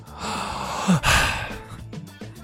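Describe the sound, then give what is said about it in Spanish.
A sharp breath, like a gasp or sigh, breaks in near the middle of a dramatic, gothic-sounding piece of music, standing out against the steady, moderately loud backing. “Y hace efecto, cuando respira suena, mira.”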